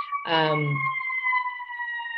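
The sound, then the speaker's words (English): A siren sounds as a steady, sustained tone with bright upper pitches, holding level for about two seconds, with a brief voice at the very start. “siren.”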